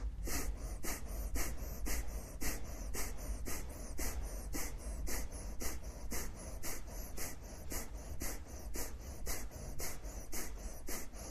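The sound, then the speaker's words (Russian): Rapid rhythmic breathing during a kriya yoga breathing exercise: many quick, even breath pulses at a steady fast pace, faint and unbroken, with no talk. “Дышим через эту трубочку.”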